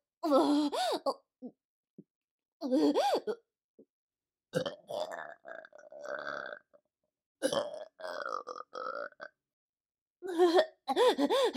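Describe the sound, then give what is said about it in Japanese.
Repeated burping: several loud, throaty belches in separate bursts, some drawn out with a wavering tone, separated by short silences. “ゲップ止まらないよ。”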